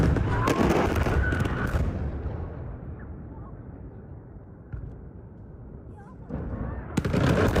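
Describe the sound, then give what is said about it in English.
Explosions from a military strike on a bridge: loud, booming blasts in the first two seconds that fade into a low rumble, then renewed heavy bursts near the end. “posting this video of a U.S. strike on a bridge that a U.S. official tells PBS NewsHour was a planned Iranian resupply route. The view from a nearby family picnicking during the attack, terrifying.”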